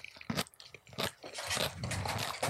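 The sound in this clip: Crisp crunching of a fried pickle being bitten and chewed, a few sharp crunches at first, then a steady run of loud, wet chewing with no talk.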